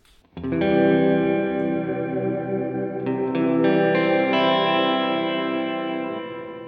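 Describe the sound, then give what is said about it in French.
A sustained chord played through a reverb effect with its tone knob set to the middle, ringing in a washy, shimmering sustain as a few higher notes join midway before a slow fade. “À droite, nous avons le bouton tone qui permet de couper dans les hautes fréquences de la reverb et comme ça d'avoir un peu plus de définition. Si je mets au milieu,”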